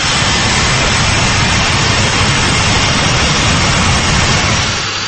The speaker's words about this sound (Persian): این هواپیمای بوئینگ از فرودگاه دوشنبه به سمت روسیه پرواز دارد